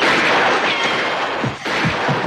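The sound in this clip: Automatic gunfire from armed troopers firing into an apartment ceiling: a loud, dense, continuous burst of crackling shots that briefly dips near the end, then resumes.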